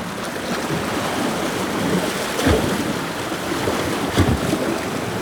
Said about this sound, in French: vous regardez avec vos oreilles le clapotis des vagues